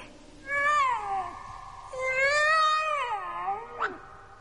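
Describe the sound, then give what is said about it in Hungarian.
A tomcat meows in two long, wavering, high calls with rich harmonics, loud and clear with no talking. “Kedves kandúr, merre van a gazdád?”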